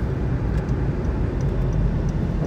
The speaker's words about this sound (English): Pardon me, I'm driving.